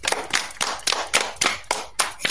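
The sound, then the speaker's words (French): Audience clapping at the close of a religious programme segment, with the crowd applauding itself. Sharp claps land together in a steady, even rhythm, each beat crisp and distinct. “Bravo les amis, vous êtes formidables. Applaudissez-vous.”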